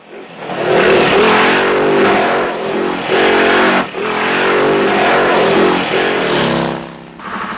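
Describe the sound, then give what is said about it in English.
Engines of two black and white police squad cars chasing motorbikes and a bus along a narrow coconut-strewn lane in a Bond film. Loud, repeated revving surges with brief dips between passes. “Two black and white squad cars follow the motorbikes out of the village in pursuit.”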